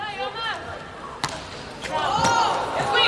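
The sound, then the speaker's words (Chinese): A ball struck on a serve in a sports match gives a couple of sharp, quick impacts that cut through continuous, lively commentary. “阿莱克西奇发球”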